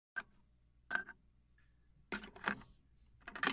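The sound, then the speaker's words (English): A tape cassette clicks and clatters, giving a few sharp mechanical snaps and rattles separated by quiet hiss, all soft overall. “Tape cassette noises.”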